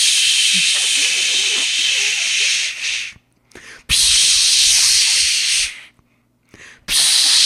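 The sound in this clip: A voice imitating a long-nozzle spray can spraying into a bee nest: loud, sustained hissing bursts of breath, each held for a couple of seconds, separated by short silent gaps.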